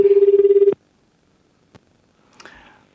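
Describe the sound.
Ringback tone of an outgoing telephone call: a steady low tone pulses rapidly for under a second, then stops, followed by a single click and a few faint rustling sounds.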